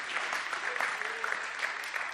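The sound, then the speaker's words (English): Faint, steady clapping from a church audience at a sermon, a soft continuous patter of many hands with a voice briefly audible underneath. “Somebody clap your hands right now like you believe God's going to do it in your life, in your spirit.”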